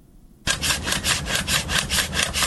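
A hand saw cuts pomegranate tree wood in an orchard in Kandahar's Arghandab district. After a brief quiet start, rasping strokes begin abruptly and repeat in a fast, steady back-and-forth rhythm, loud and alone.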